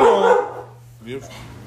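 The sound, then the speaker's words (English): A guard dog barks twice: a loud, full bark, then a short pause and a second, shorter bark. “We got a guard dog for the podcast.”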